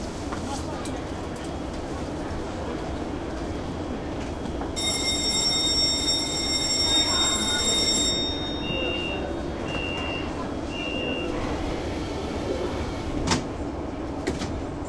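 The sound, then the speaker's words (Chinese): Steady, loud rumble of a Beijing Metro Line 2 subway train running, with a high sustained electronic chime for a few seconds, then a few short beeps, and a sharp click near the end. “欢迎乘坐地铁二号线列车。列车运行前方是建国门站。”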